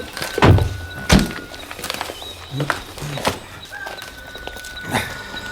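Car doors thud as people climb out of a vehicle stopped before a barrier at a locked parking lot at night. There are a few separate, heavy thunks spaced apart over a quiet background with faint steady tones.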